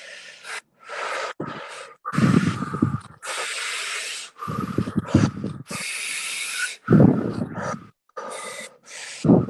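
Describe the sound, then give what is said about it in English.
Deep, steady breathing through the mouth during a paced breathing exercise: many breathy rushes of inhales and exhales, some with a rough, gasping edge, follow one another in a flowing rhythm with brief gaps between them. “going right into the same thing, this time just through the mouth, we'll start with that steady breath again.”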